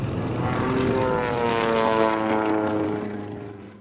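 A propeller airplane flies away. Its droning engine holds steady and loud at first, with a slight downward slide in pitch, then fades out toward the end.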